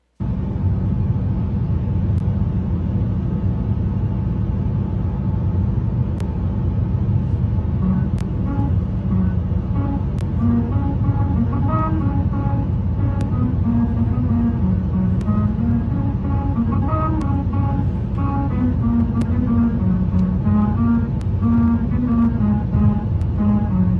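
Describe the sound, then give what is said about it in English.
Car tyres driving over a musical road in Hungary at the speed limit, a steady loud road rumble carrying faint shifting tones that form a tune throughout. “in Hungary, there's actually a road that if you drive the speed limit, it'll play a song for you.”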